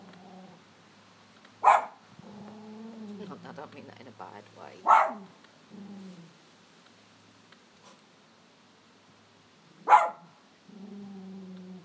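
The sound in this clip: Sharp barks from an old, deaf poodle ring out three times at uneven intervals, standing out clearly over a person talking steadily throughout.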